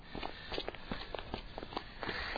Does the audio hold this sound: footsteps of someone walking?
yes